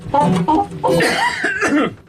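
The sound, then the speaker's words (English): A person coughs in a radio studio: a few rough, voiced, throaty bursts, the last one long and drawn out. “So, excuse me while I cough.”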